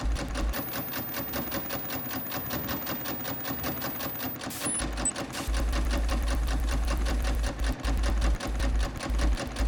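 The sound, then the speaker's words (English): A sewing machine stitches close to the folded edge of fabric while finishing a pressed seam, giving a steady, rapid, even mechanical whir that runs unbroken and alone and grows slightly louder partway through. “After finger pressing, stitch on the machine close to the folded edge, making sure that the body of the material is pushed to one side, where it won't interfere with stitching the seam.”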